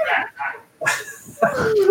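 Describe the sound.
A dog vocalizes in short noisy bursts and then a wavering, whine-like tone near the end, mixed with speech.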